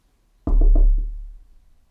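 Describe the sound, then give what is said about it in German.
Knocking on a house door: a few quick, hollow raps in a short burst, loud against silence, then fading away. “Eines Tages klopfte ein kleiner Mann an ihre Tür”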